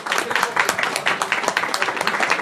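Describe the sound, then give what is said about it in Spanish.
An audience applauds a guest coming onstage at a comic and Star Wars fan event. The clapping is dense and lively, with many overlapping claps and a few louder accents throughout. “Un fuerte aplauso para el Rey David.”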